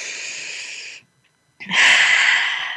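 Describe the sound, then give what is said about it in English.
A group takes one collective deep breath: a long, airy inhale fades into a short silence, then a fuller, louder exhale sweeps in and tapers off, with no talking. “So one more collective breath together.”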